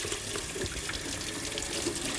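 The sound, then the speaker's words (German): Running tap water rinses a kitchen grater, a steady, fairly soft rushing and splashing that continues without a break and without any talk. “Ich spüle gleich die Reibe ab, weil wenn das eintrocknet, kriegt man das nie runter.”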